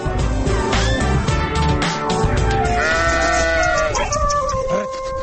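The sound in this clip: Sheep and goats kept as livestock bleat repeatedly, with several overlapping wavering calls at varied pitches, loud and close together.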